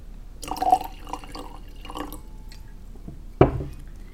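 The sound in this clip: Wine is poured into a glass in a few soft gurgling, splashing bursts. A single sharp knock follows after a short pause, and no voices are heard.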